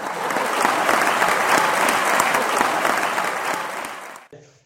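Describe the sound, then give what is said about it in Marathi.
Loud, dense audience applause from many hands during a Marathi-language talk. It holds steady for about four seconds, then cuts off abruptly. “एकदा जोरदार टाळ्या वाजवा त्याच्या अगोदर।”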